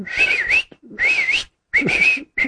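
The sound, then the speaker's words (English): A person whistles to a caged canary kept under a cover: three warbling, high melodic phrases separated by short pauses, with a fourth phrase just starting at the end. “And he'd begin to whistle at this canary, like,”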